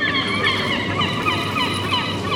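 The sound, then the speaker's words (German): Seagulls call near a northern beach, with many overlapping squawking cries and wavering yelps forming a loud, continuous chorus throughout. “Die Möwen sind musikalisch. Die Möwen geben. Aber Möwen erzeugen überall auf der Welt Musik.”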